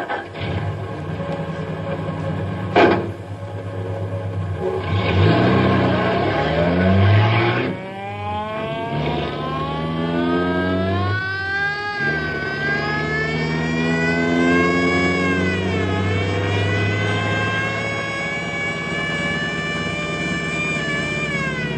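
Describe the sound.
A car engine revs as the car is driven erratically, weaving down a mountain road. Its pitch climbs and falls in long sweeps as it accelerates and eases off, loud and steady throughout, with no talk.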